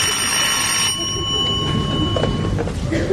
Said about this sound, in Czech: Vemte to, někdo volá.